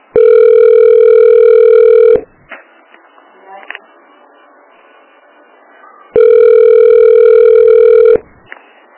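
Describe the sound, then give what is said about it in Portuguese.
A telephone ringback tone sounds while a call is being placed. Two steady buzzing tones of about two seconds each are separated by a long pause filled with faint clicks and low noise. “Tô ligando de novo.”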